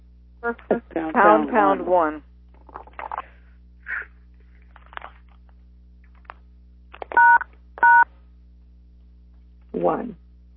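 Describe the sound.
Two telephone keypad tones, pound and then one, are pressed to mute a line on a call. They sound as short, steady electronic beeps that follow people talking.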